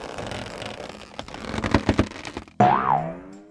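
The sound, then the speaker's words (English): A cartoon giant super ball bounces, with a run of rattling thumps and clatters followed by a loud springy boing whose pitch wobbles up and down as it rings out. “Mighty Mila just transformed into a giant... Super Ball? Wow, she can really bounce.”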